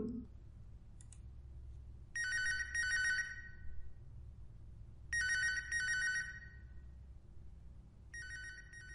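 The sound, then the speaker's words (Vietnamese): A telephone rings in a bedroom after dark: three bursts of bright, trilling double rings separated by pauses, the last cut off at the end, over a low steady background hum. “Tiếng chuông điện thoại reo lên.”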